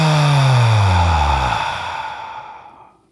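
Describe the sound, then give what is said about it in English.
A deep breathwork exhale out through the mouth comes as a loud, voiced sigh that sinks in pitch and thins to a soft hiss before trailing off after about three seconds. “Take a deep breath in through your nose. Fill your belly. Let it go out of your mouth.”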